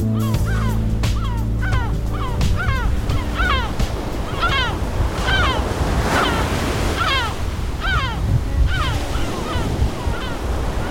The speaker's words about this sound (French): Sopla forte la tramontana. La tramontana souffle fort.